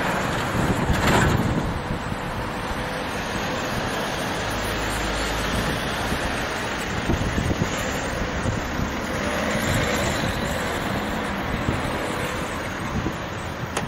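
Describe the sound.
Wind blows hard on a summer day in June, a continuous loud roar with low rumbling gusts buffeting throughout, and no voices.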